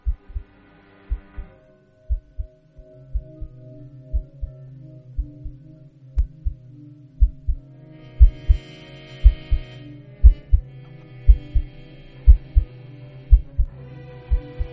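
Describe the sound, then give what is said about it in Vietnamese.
A heart beating hard and loud, with steady paired lub-dub thumps repeating evenly throughout over a low, continuous hum. “Thậm chí cô nghe tiếng trái tim trong cơ thể cô đang đập liên hồi.”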